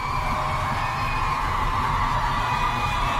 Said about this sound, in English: Let's make a little noise. Let's get him back out here. Come on, make some noise. Let's show him how much we appreciate him being here tonight.